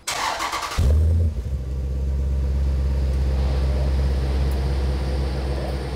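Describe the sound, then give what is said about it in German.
A car engine is revved: the start is an abrupt loud burst of engine noise, which then settles into a steady, deep, low rumble that holds at an even level to the end, with no voices. “Gib mal Gas. Ganz anderer Klang.”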